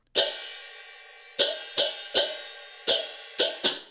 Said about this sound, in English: There are 8 pairs of cymbals, called chang chang, and 8 cymbal players. The cymbal section alternates between performing unison rhythmic figures like this